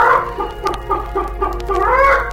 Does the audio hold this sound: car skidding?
no